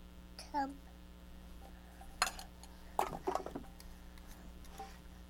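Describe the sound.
A spoon clinks and scrapes against a pot while stirring a child's pretend dinner for Mama: faint, scattered metallic taps and clatters with soft voices around them.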